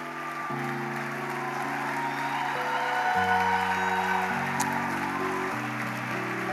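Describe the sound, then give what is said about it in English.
Audience applause for couples receiving their marriage bands at a church service: a continuous wash of clapping hands under sustained keyboard chords that shift every few seconds, holding a steady level throughout. “Clap for these wonderful people.”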